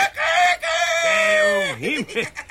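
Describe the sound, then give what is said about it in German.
A human voice imitates a rooster crowing in a radio play, giving one drawn-out, nasal crow that holds steady and then breaks into a wavering warble that rises and falls at the end. “Und jetzt kommt noch ein Hahn.”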